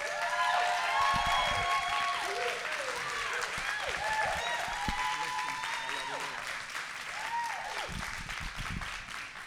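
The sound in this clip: A church audience applauds to welcome a guest pastor, a loud, sustained wash of clapping that slowly tapers, with a voice talking over it.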